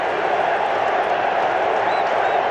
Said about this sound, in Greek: Και η μπάλα είναι κόρνερ. Και ζεστάθηκε ξανά το κοινό.